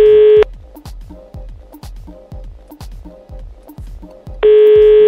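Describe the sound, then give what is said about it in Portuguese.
A telephone call is dialed: a steady tone, then a rapid, even series of many short clicking pulses, and the steady tone returns at the end. “Vamos ligar pra ele e saber do Thiago”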